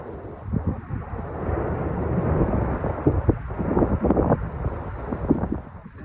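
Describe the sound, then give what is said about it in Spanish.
Deep, continuous roar of the erupting volcano on La Palma, a broad rumbling wall of sound mixed with gusting wind noise, with loudness surging in uneven bursts throughout and no voices. “a ver cómo está sonando el volcán. Alex, ábrenos. Ese es el sonido del volcán ahora mismo. Así llevan un mes en La Palma. Está haciendo viento.”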